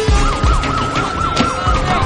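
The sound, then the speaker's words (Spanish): Loud emergency sirens of police cars and fire engines arriving at an airport, a rapid, repeating yelping warble over a low vehicle rumble. “Los coches de policía y bomberos llegan al aeropuerto.”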